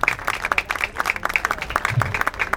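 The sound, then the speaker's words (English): Audience clapping at a campaign event in Geneva. Many quick, dense claps run steadily through the brief stretch. “It's really important to have the participation of Geneva people this morning. So a hand for that.”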